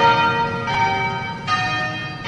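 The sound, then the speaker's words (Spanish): Anglican cathedral church bells ring at noon in Cape Town, with a few struck notes whose bright, sustained tones overlap and hum between strikes. “Las campanas sonaron al mediodía de este lunes desde la Catedral Anglicana de San Jorge en Ciudad del Cabo para honrar al arzobispo emérito Desmond Tutu”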